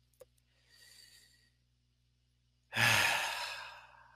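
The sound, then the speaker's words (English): Deep breathing while expanding the chest: a faint, soft inhale followed by a loud, drawn-out sighing exhale, with no talk. “Five deep breaths, expanding your chest. Go ahead.”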